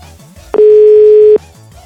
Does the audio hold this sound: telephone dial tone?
yes